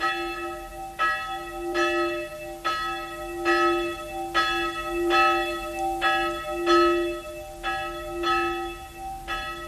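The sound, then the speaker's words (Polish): A church bell tolls for a funeral at a small cemetery in Sopron, a Hungarian town, with many even, ringing strokes about one per second, each leaving a humming resonance. “Na małym cmentarzyku węgierskiego miasteczka Sopron bije dzwon na pogrzebie starego Laszlo Bozo.”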